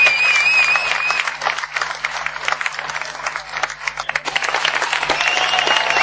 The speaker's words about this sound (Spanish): me gustaría un aplauso muy grande para toda la gente del staff de la ESL